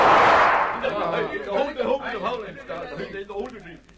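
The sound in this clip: A sniper's gunshot in thick jungle opens with a loud, sharp burst that decays over about half a second, after which a man talks steadily.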